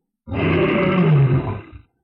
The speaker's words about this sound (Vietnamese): Hắn nhìn thấy được một con hoàng kim sư tử đang gào lớn như muốn đánh chết hắn